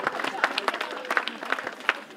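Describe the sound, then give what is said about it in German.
Crowd applause for volunteers at a neighbourhood urban-development day in Dürkow, Rostock. Faint, uneven clapping with scattered sharp claps, mixed with talking voices throughout. “Einen großen Applaus für alle Ehrenamtlichen.”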